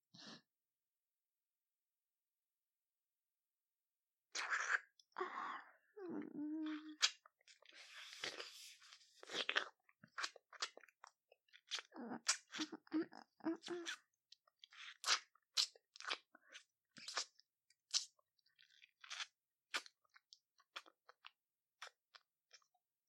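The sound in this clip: Crunchy food being bitten and chewed: many sharp, dry crunches in an irregular rhythm, quiet throughout and starting after a few seconds of silence.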